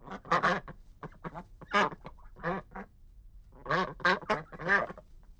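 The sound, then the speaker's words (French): A duck quacks in many loud, nasal quacks grouped in quick bursts, with a clear pause before a final dense cluster. “Qu'est-ce que c'est? C'est le canard.”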